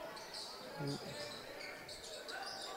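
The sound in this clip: A basketball bounce pass during a boys' high school game on a gym court gives a dull thump against steady crowd noise, with a commentator talking.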